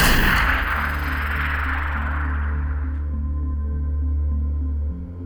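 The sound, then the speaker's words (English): A warning shot fired in an audio drama: one loud, sharp blast at the very start, then a long ringing tail over a low, steady drone. “That was a warning shot, Lieutenant. To make a point about not interrupting when I'm speaking.”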